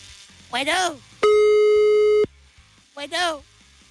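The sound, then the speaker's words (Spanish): A telephone line tone while a call is being dialed: one steady, loud electronic beep lasting about a second, with brief bits of voices before and after it. “Cállense, está marcando ya.”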